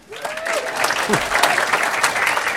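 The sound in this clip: Audience applause welcoming a guest on stage at a live talk: steady, dense clapping from a crowd that swells and holds throughout, with a few voices calling out within it.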